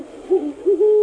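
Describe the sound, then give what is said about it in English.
A great horned owl hoots: several deep, soft, resonant hoots in a short rhythmic series, the last one held a little longer, with no other sounds around them. “That's the call of the great horned owl.”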